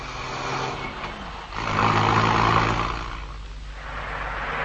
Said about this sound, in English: Now, listen. There's the cab driving off.